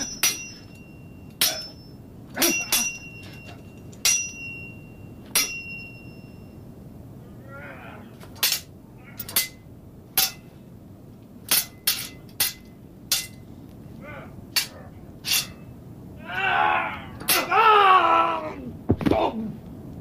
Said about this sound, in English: Sword fight.